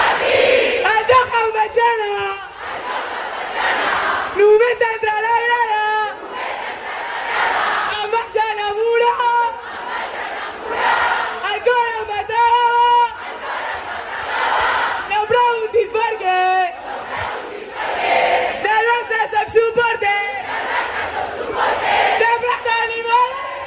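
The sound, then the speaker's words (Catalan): Crowd chanting and cheering at a women's football title celebration on a stage at Maria Cristina, fired up by goalkeeper Cata Coll. Loud repeated chant phrases rise in waves, with voices surging together over a continuous roar. “Cata Coll precisament va fer una mica de mestre de cerimònies i res més arribar a l'escenari de Maria Cristina, ja va encendre el públic.”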